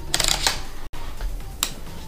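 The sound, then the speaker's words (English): Ratchet buckle clicks as a MonkeyFeet foot strap is tightened: a quick burst of several sharp mechanical ticks, then a lone click a moment later, all fairly quiet. “Simply feed the strap through the buckle and use the ratchet mechanism to tighten.”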